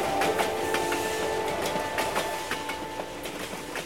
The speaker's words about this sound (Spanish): Y podía oír así el ferrocarril de una locomotora trepando los cerros increíbles.